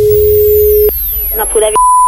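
Telephone ringing tone while calling a restaurant: a steady single-pitch tone holds for about a second and stops, brief muffled sounds follow, then a higher steady tone begins.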